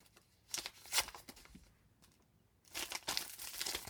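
A paper envelope is opened with faint crinkling and tearing: a few short rustling bursts, a brief lull, then a longer stretch of steady paper crackle.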